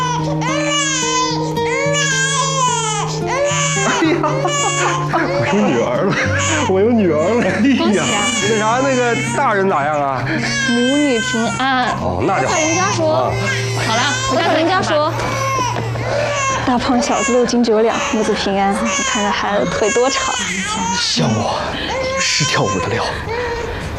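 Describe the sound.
A newborn baby girl cries just after birth, weighing five jin eight liang: loud, continuous wavering wails with rising and falling pitch, while adult voices talk over the crying.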